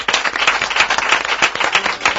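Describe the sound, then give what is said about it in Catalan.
Continuous loud clapping, with dense, steady hand claps that keep an even, slightly pulsing rhythm throughout. “Des d'aquí t'enviem un aplaudiment.”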